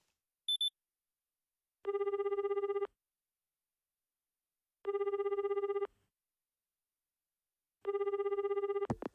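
A telephone rings on a call, with three evenly spaced ring tones of about a second each separated by silence, preceded by a brief high beep.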